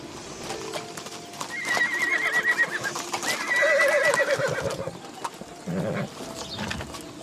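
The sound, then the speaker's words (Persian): A horse-drawn carriage comes to a stop, with hooves clip-clopping and a horse whinnying in drawn-out calls, the sounds swelling and easing over several seconds. “خدیجه دستور توقف کالسکه رو میده.”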